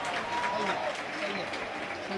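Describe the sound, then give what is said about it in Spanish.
Crowd applause at a Murcia football match as a substitute comes on, a dense, steady wash of clapping held at an even level throughout, with a commentator talking over it. “Para que la gente le dé la ovación.”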